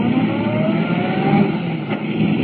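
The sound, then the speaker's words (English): A car speeds out of a sanatorium driveway onto a smooth concrete main road, reaching 70 miles an hour. Its engine roars loud and steady, with whining tones, across the brief clip. “Swinging out of the sanatorium driveway, Clark Kent hits the smooth concrete of the main road, traveling at 70 miles an hour.”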